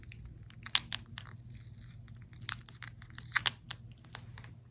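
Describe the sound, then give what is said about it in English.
A sticker is ripped off a small item in a quiet close-up setting. A few short, crinkly tearing bursts stand out faintly over a low steady hum. “these also have this heinous sticker on them, and I'm just not gonna subject you to something so awful. Does that make a good ripping sound?”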